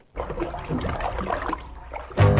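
Water splashing in a bath: a broad, churning wash of splashes that runs steadily for about two seconds before music starts up at the very end.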